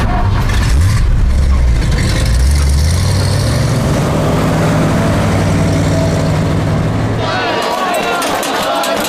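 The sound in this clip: A car engine starts off: a low hum rises in pitch as it accelerates, holds steady, then cuts off near the end, with people talking over it.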